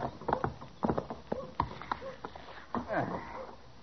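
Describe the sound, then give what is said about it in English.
A ridden horse's hooves clip-clop in an uneven run of hollow knocks in a dusty Western town, mixed with snorting breaths. “Come on, get down off that old horse. You've been riding so long, you need to walk around some.”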